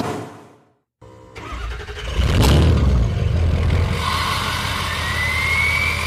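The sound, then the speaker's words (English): A high-performance diesel truck engine fires up: after a brief silence the starter cranks, then the engine catches with a loud rumble and settles into a steady, throaty idle. “if you don't know that that is the sound of a high performance diesel truck firing up, then you probably don't own one”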